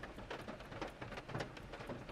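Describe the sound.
Rain falling at night, a soft, steady hiss of many small drops that continues evenly throughout.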